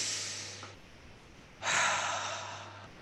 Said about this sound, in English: Release, big breath in.